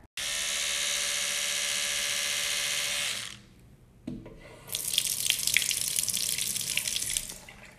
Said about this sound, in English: you're just gonna hear me like brush my teeth and put on the stuff on my face now.